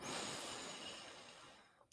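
A slow, deep inhale taken during a breathing meditation, heard alone as a soft, airy hiss lasting about two seconds that gradually tapers off at the end.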